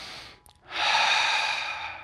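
Breathing sounds from a person: a soft breath at the start, then a pause, then a long, loud breath that holds steady until the end.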